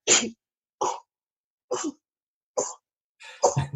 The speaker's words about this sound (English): I'm just having a sneezing moment. the hay fever starting.